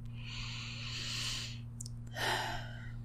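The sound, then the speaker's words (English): A slow, deep breath: a long, airy inhale, a short pause, then a fuller exhale, soft and alone over a faint steady low hum. “Let's once again begin with a deep breath”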